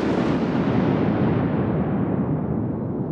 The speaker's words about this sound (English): a clap of thunder crashed so loudly